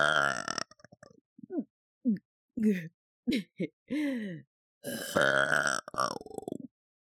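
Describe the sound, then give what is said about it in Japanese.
A woman belches after a full meal, with a few throaty burps and short voiced grunts in separate bursts between silent pauses, some deep and drawn out, others brief. “ゲップくっさ。”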